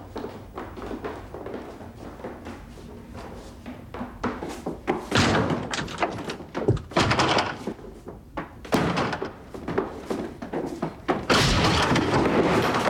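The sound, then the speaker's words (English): A bed base is rammed against a dormitory door until it gives way: many heavy, irregular thuds and bangs that grow more forceful, ending in a loud, sustained crash. “They batter at the door until it gives way.”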